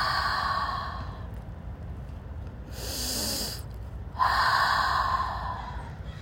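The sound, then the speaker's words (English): Deep breaths in and out during a guided relaxation exercise: slow, airy rushes of breath with a short pause between them, heard alone without talk. “let's close our eyes and take a deep breath. Inhale and exhale.”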